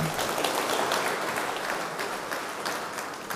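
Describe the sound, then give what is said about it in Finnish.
Warm audience applause welcoming a speaker, a thick, continuous patter of many hands clapping at an even level that eases off slightly toward the end. “annetaan hänelle myös lämpimät aplodit.”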